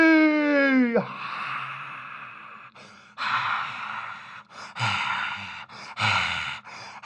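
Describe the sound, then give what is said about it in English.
Hot breath is blown onto a microphone in a few long, rushing bursts of breathy noise with short gaps between them, loud and hissy. “Do you make fun of me for blowing my hot breath on the mic?”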